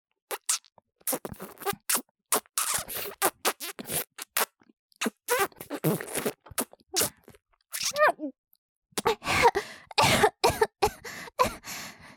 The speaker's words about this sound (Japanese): すみません。ちょっとむせてしまいました。